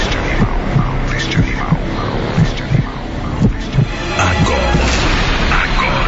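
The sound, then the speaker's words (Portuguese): A pounding heartbeat sound effect opens a live music show, meant as the powerful heartbeat of an animal: loud, steady low thumps roughly once a second over a droning hum and other layered effects. “Sinta a poderosa batida do coração deste animal.”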